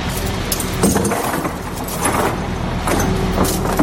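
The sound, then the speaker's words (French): A crane moves in to pick up a metal template and lay it on its side, giving a steady, fairly loud mechanical rumble with faint metallic clinks running through it. “La grue est en train de s'approcher pour pouvoir attacher le gabarot afin de le mettre sur le flanc.”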